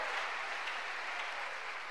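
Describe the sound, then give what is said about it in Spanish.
An audience applauding during a church service makes a soft, even wash of clapping that carries on without pauses. “¿Cuánto le dan un aplauso a esa misericordia de Dios?”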